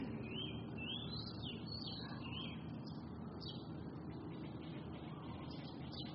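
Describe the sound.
Faint birds chirp and twitter outdoors in repeated short high calls over a steady low background hum that runs throughout.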